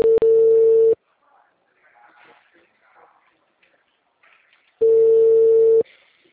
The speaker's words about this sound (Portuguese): Tá chamando ainda.